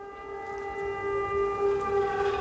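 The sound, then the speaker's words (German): An air raid siren in Ukraine sounds a steady, rich wail on one held pitch with strong overtones. It is continuous throughout and swells slightly louder toward the end. “Sirenenalarm in der Ukraine. Dieses Geräusch haben bis heute hunderttausende Menschen gehört. Bevor Bomben einschlugen.”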